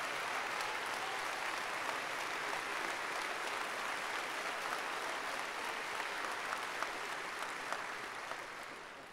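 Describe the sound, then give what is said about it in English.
An audience applauds a pastor being introduced at an event. The clapping is dense and continuous but fairly faint, with occasional sharper claps, and it tails off near the end. “Give a hand now, Pastor Reverend Terry Anderson. Give him a big hand.”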